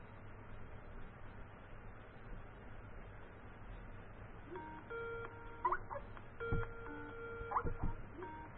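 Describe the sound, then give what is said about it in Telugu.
Telephone tones as a call is cut and redialled: quiet hiss at first, then a series of short electronic beeps at several pitches, faint and without talking. “ఒక్కసారి నేను call cut చేసి మళ్ళీ చేస్తున్నాను, break అవుతాం.”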